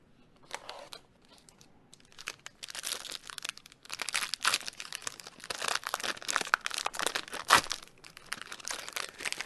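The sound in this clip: A foil trading card booster pack is torn open, giving a continuous dense crinkling and crackling of wrapper with scattered sharper crunches and tears. No one speaks.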